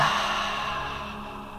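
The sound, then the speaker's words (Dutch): Deep exhalation through the mouth during a guided breathing exercise: a long, soft, breathy rush of air that slowly fades over about a second and a half. “En als je voor jezelf antwoord hebt gegeven op die vraag, adem dan nog een keertje bewust in door je neus. En laat al die lucht gaan door je mond.”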